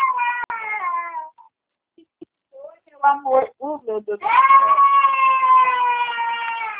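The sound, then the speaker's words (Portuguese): A baby cries in loud, harmonic wails: one long cry, a pause with faint whimpers, a few short choppy sobs, then a sustained wail that runs to the end. “Amor, meu Deus. Para de chorar.”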